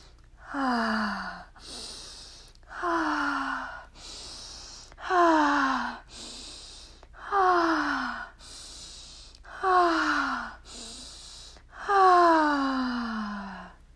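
Deep breathing in a guided breathwork exercise: six voiced exhales, each a sighing tone falling in pitch, alternate with quieter airy inhales in a slow, steady rhythm.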